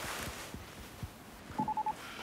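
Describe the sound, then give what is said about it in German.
Telephone signalling an incoming call: four short, quick electronic beeps in a tight, even row, faint against a low background noise. “Du, ich muss mal kurz auflegen. Hannos Schule ruft an.”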